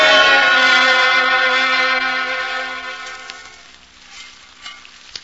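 Bacon and eggs frying in a pan give a loud, steady sizzling hiss that fades over about three seconds, leaving faint scattered crackles and pops.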